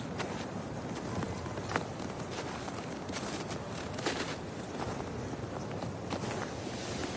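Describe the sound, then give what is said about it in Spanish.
Footsteps walking through a snowy cemetery in winter, a dense, steady crunching of many steps that continues evenly throughout without pauses. “El suegro de André camina por el cementerio.”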